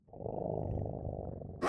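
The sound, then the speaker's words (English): A lion-like creature in a video game lets out a deep, rumbling roar that holds steady and loud for over a second, then a sudden harsh burst of noise cuts in at the very end. “Now, to deal with that lion or whatever it is.”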